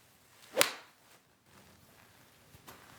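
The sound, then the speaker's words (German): A golf iron swings and strikes a ball off the ground, making one sharp, whip-like crack with a brief swish, followed by faint low rustling. “Und deswegen jetzt vom Boden, weil ich das Eisen eigentlich meistens vom Boden schlage. Na dann, also, jetzt geht's los.”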